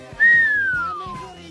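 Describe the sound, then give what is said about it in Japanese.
A person whistles as a reaction to a beautiful woman: one long whistle that starts high and slides slowly downward for about a second, over a faint, low rhythmic thumping. “あれ何なんでしょうね、口笛吹くっていう”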